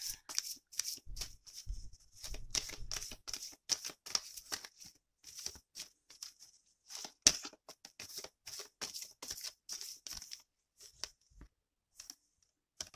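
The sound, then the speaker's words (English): Cards from a Romance Angels oracle deck are shuffled and handled while one is pulled, giving many quick, crisp flicks and rustles in irregular bursts, quiet and with no talk. “I got a couple other cards I'm going to pull. I'm going to pull one from the Romance Angels card.”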